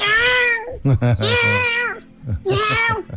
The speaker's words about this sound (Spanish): le hace cariño y al gato grita súper fuerte. Que nadie lo entiende. Yo dije, calla, antes que empezara a hablar, le dije, calla el gato que voy a hablar.